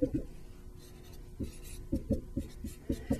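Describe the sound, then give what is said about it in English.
Dotted lines being drawn on a graph. A few quiet clusters of short, soft taps and scratchy strokes, separated by brief pauses. “If you think about the line y equals 4x, I'm going to draw it with dotted lines.”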